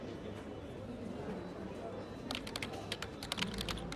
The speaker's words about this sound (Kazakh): Бір секунд, қазір сіздің кері байланысыңызды жазып аламын.